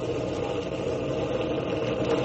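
Steady, unbroken droning of an aircraft engine, the number two engine of a plane with a gun turret. The sound is loud and even throughout, with a low rumble and no talk.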